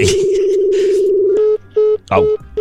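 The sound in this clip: Telephone call being dialed and ringing: a steady mid-pitched tone holds for over a second, then breaks into a few short, evenly spaced beeps, with some noise over the start.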